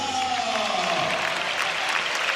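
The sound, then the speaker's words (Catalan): Football crowd applauding as an injured player walks off with an ankle knock, a broad, sustained wash of clapping from the stands that stays level throughout, with a voice faintly beneath it. “Aplaudeix el públic”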